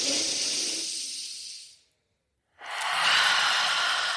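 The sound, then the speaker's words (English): A deep breath drawn in through the nose and then released, part of a guided relaxation. Two long, soft, breathy rushes are separated by a short silent pause. No talking is heard. “Taking a deep breath in through the nose to start and release. And just one more.”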